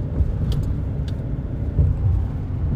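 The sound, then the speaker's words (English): Steady low engine rumble fills the inside of a truck cab, with a few faint light clicks or rattles on top. The drone stays fairly even throughout, and no one speaks. “I'm recording this in my boss's truck. So if you hear some things you normally don't hear in my podcast, you know, I'm in my boss's truck today.”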